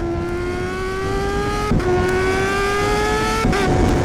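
A car engine accelerates with a steady droning tone that rises gradually in pitch, broken twice by brief dips before climbing again, loud and alone.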